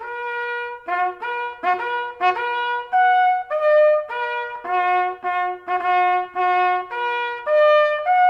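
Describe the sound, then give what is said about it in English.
A bugle sounds Extinguish Lights, the last call of the evening for turning off lights and going to sleep. Many clear, brassy notes, some short and some held, follow at a measured, march-like tempo, played alone. “Extinguish Lights is the last call of the evening. It is the bugle call that sounded to turn off the lights and go to sleep.”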